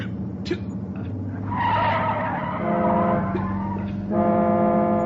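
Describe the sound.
A car swerves hard to avoid a bus, its tires skidding in a long, loud, high screech that holds steady and swells in the middle and again near the end.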